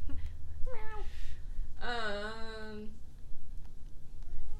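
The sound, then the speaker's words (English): A cat meows twice, a short tonal call followed by a longer, louder, drawn-out meow with rich harmonics, over a quiet background. “That was the cat, not that me. Was the cat.”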